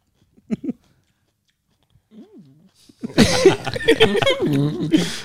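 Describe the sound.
Chewing of small pickled chili peppers (guindillas): a few short, soft crunchy bites and mouth clicks, then people talk loudly over the chewing.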